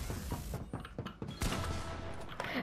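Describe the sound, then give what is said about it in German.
Video game gunfire during a one-on-one box fight, with a series of quick, sharp shots and thuds, fairly faint, followed by a denser burst of fire. “Wir schießen ihn jetzt einmal an.”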